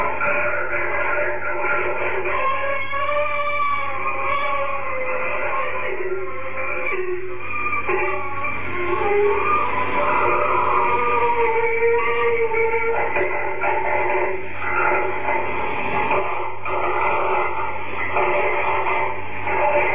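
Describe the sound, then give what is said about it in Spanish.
Steady interference noise and static fill a long psychophony recording made at a palace in Madrid. A dense, continuous hiss carries faint wavering tonal streaks, with no clear words or pauses throughout. “Es una psicofonía muy larga y en realidad todo el tiempo vamos a estar escuchando algo que puede atribuirse, como bien decíamos al inicio, a una serie de interferencias y situaciones alrededor de la grabación”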